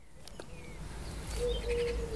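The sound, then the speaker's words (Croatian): Small birds singing in pine trees in front of a house terrace: faint, thin high chirps and a few short whistled notes over a low, steady background rumble. “Volim kad čujemo ove male ptičice kak pjevaju tu na našim borovima ispred naše terase u moje rodnoj kući.”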